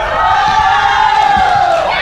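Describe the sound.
Volleyball fans screaming in an arena during a match, a loud, sustained, high-pitched roar of many voices that continues without a break.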